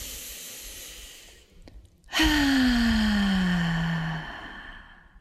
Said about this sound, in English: Letting go on the out breath. Second breath. Third breath.